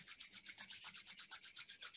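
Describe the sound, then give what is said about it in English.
Hands rubbing together briskly, many quick back-and-forth strokes forming an even, rapid swishing rhythm of soft, airy friction, with no talking. “So keep on rubbing your hands together.”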